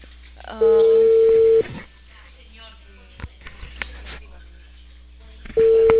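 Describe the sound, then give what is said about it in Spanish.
Telephone tones as a call is placed: a long steady ringback beep, then a stretch where a voice talks over faint line noise, and the same steady tone returning at the end. “Estoy llamando, pero no creo que contestes.”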